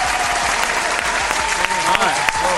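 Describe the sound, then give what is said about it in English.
Audience applause for performing rap artists, a loud, dense and steady clapping that holds throughout with a few sharper claps standing out. “let's give these artists a nice big round of applause”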